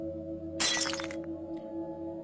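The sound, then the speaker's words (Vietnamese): Glass mirror falling from a table to the floor and shattering: one bright crash of breaking glass, then a few faint tinkling fragments over a low steady hum. The whole clip is quiet. “Cái gương trên bàn của Thúy Hạnh rơi xuống đất vỡ tan.”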